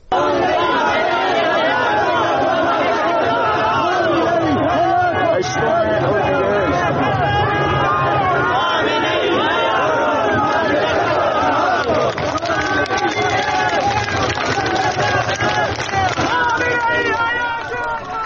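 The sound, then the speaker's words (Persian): Protesters in Zahedan chanting slogans, a dense mass of raised voices shouting together in a loud, unbroken roar that fills the whole stretch. “این صدای مردم معترض است در زاهدان، شعارهایی مثل حکومت بچه کش نمیخوایم، خامنه ای قاتل، ولایتش باطله، این همه سال جنایت، مرگ بر این ولایت”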